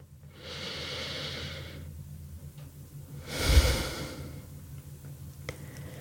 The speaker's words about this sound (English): So take a moment now, pause, take a deep breath with me.